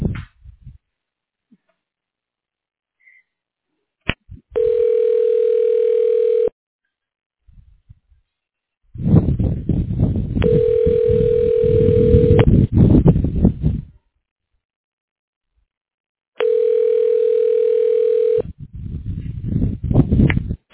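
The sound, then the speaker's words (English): A telephone ringing tone sounds while a call is transferred through a Hawaii hospital's phone system. It gives three steady, mid-pitched tones of about two seconds each, evenly spaced by longer gaps, with bursts of crackly noise between them. “Okay, hold on the line, I'll transfer you.”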